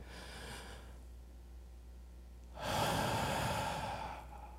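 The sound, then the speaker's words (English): A single deep breath, heard as one long, loud airy rush lasting nearly two seconds and following a quieter, softer breath earlier on. “It's kind of like, just take a deep breath.”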